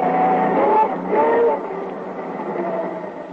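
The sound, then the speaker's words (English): A car motor running badly gives a rough engine drone. It swells louder twice in the first half, then sags into a weaker, uneven hum. “Something wrong with the motor? I'll get out and see.”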